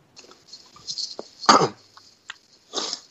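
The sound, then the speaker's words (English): A person coughs and clears the throat on a piece of pretzel stuck in the throat, with a few sharp, irregular bursts of varying strength separated by short quiet gaps. “Hold on, I was eating a pretzel and it got stuck in my throat.”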